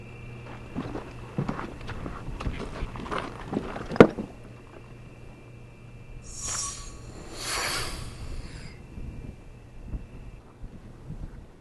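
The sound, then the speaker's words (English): Wind and crunching footsteps come first as someone walks into the wind, then a sharp click. After it, two short hissing bursts follow as the 50-year-old air sample flask opens, and faint wind noise stays underneath. “And then I'm going to hold my breath, walk into the wind, and you'll hear the sound of the flask opening. Here we go.”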